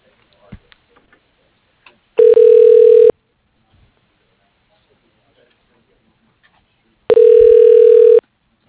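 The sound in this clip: Telephone ringing as a call is transferred to voicemail: two long, steady buzzing rings about five seconds apart, with a few faint clicks before the first ring and near-silence between them.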